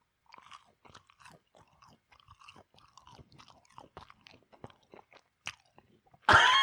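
Biting and chewing on food in pitch darkness: many faint, soft crunches and moist clicks scattered irregularly, then a sudden louder rush of noise at the very end.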